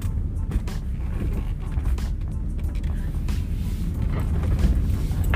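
Steady low engine and road rumble inside a car that is driving and turning a curve, an even drone with faint scattered clicks.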